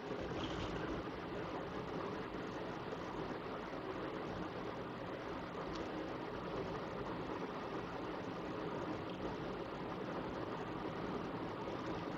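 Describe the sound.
Car driving along a fairly wide road: a steady, low road and engine rumble holding a constant level throughout, with no talk.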